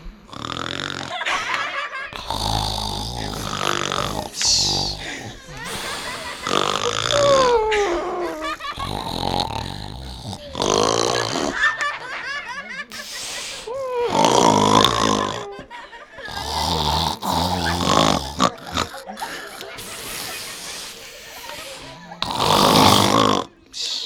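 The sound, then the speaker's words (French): Snoring imitated by voices: a loud, rough solo snore stands out over lighter, punctuated snores in the background, with many irregular, rasping breaths overlapping throughout. “redonne-nous un ronflement s'il te plaît. Ils sont tellement beaux. Fais-nous un solo s'il te plaît. Tu es accompagnée derrière par des ronflements légers mais ponctués.”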